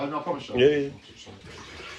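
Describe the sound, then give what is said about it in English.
Running water from a tap as someone washes their hands, a steady watery rush heard under and between voices talking. “What's up with washing your hands now?”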